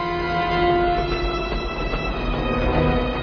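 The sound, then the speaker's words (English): Moving Chicago L train at night: a steady, loud rumble with sustained humming tones and rail noise running continuously throughout. “Done on a moving train at night, back and forth, in a loop around the loop.”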